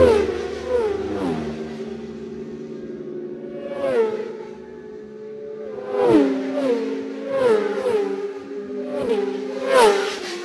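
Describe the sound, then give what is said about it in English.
Racing motorbikes tear past at speed one after another, each high engine whine sliding down in pitch as it passes, with several overlapping passes and loud revving throughout, no talk. “Have a listen to that massive display of bikes going through here.”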